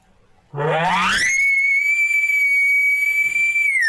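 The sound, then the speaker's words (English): An elk location bugle blown through a tube call: one call that starts low and slides steeply upward into a loud, high, steady whistle, which holds for a few seconds and then cuts off. “Location bugle. Everybody knows the typical location bugle.”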